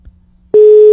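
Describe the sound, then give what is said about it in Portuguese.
Telephone ringing tone on an outgoing call: near silence gives way halfway through to a loud, steady, single-pitched tone that holds to the end. “Chamando, hein? Tá chamando, atenda, pelo amor de Deus.”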